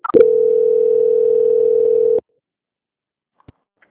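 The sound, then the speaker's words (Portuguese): A steady telephone tone sounds during a call transfer. It holds a single pitch for about two seconds and cuts off abruptly. A few faint clicks follow in near silence. “eu vou transferir o contato para o controle de qualidade que vai dar andamento à sua contratação, tá bem? Tá ok. Obrigada. Transferência.”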